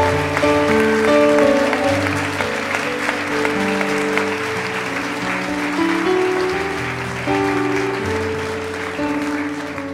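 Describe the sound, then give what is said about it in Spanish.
A church audience applauds with steady, dense clapping that holds at an even, fairly loud level for the full ten seconds. “Dele un aplauso a Jesucristo, por favor.”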